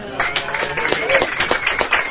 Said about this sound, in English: I told a room full of people to clap, and they did.